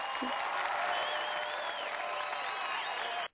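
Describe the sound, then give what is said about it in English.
Recorded applause sound effect with crowd noise, a steady, dense wash of clapping that holds evenly for about three seconds and then cuts off abruptly. “Wait a second. Let me get the applause.”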